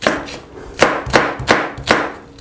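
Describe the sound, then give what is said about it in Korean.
Knife strokes as green onion is cut lengthwise. A few crisp, evenly spaced chops come in a steady rhythm, each a sharp knock that quickly fades, with no talking. “그래서 골고루 파 자, 길쭉하게 이렇게 길게 썰어주세요.”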